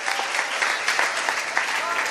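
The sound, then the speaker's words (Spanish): Audience applause rises as a dense, steady wash of many hands clapping, with no single claps standing out. It holds at an even, moderately loud level throughout. “Un aplauso.”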